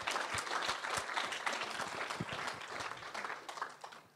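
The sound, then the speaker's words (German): Applause from a seminar audience giving praise to Jesus. Dense, steady clapping from many hands stays loud, then gradually thins and fades toward the end. “Also ihr Deutschen, ihr dürft Jesus nochmal einen Lobpreisapplaus geben.”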